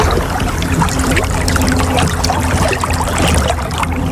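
Water flowing in a river makes a loud, steady, unbroken rush with a bubbling, trickling texture throughout.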